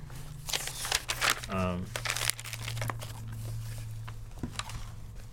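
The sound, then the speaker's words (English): Crinkling and rustling of a small folded piece of gilded paper being opened, a cluster of sharp crackles early on and a few scattered crinkles later, over a low steady hum. “The other one, must be Grundle, has a small folded apparently. Piece of gilded paper. And inside is”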